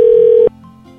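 A telephone tone while placing a call, a single steady mid-pitched tone that cuts off abruptly after about half a second, leaving faint line noise.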